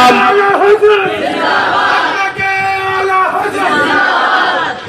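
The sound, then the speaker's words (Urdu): A large crowd loudly chants the Maslak-e-Ala Hazrat religious slogan, many voices calling out together in sustained, rhythmic unison. “مسلک آلہ حضرت کا نعرہ لگ رہا ہے”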